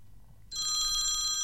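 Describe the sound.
A telephone rings early in the morning, a bright electronic trill that starts abruptly after a half-second of quiet and holds steady to the end.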